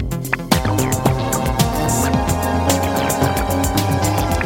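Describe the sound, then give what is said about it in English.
Weird digital music imitates aliens speaking in their own language, with chattering, glitchy electronic bursts and warbling tones jumping about in pitch. It is loud and continuous, with rapid irregular clicks and blips throughout. “they're now attempting to communicate with us using weird digital music, and this is what it sounds like. This is the sound of aliens from the future trying to speak to you in their alien language”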